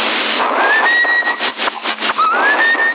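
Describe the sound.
A tune whistled over a CB radio channel: two thin whistled phrases, the second sliding upward, coming through faintly under heavy, hissing radio noise with no talking.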